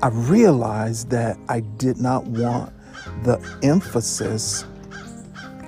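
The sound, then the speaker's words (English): A bird, tagged as a crow, caws a few times in the background, harsh and bright, while a person keeps talking over it. “Y'all hear that bird in the background? He's trying to preach while I'm talking.”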